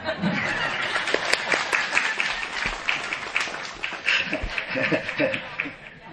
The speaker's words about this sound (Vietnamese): Vỗ tay đi.